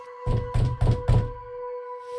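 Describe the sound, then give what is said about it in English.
Four hard fist knocks strike a door in quick, evenly spaced succession, each a loud, deep thud, with a steady faint hum running underneath. “A fist slamming against my intact door. Hard.”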